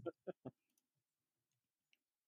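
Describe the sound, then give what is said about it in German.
A button is pressed during a quiz game. Three quick, crisp clicks come first, followed by a few faint ticks over otherwise quiet surroundings. “Darf ich den Knopf drücken? Ja, drücke mal den Knopf.”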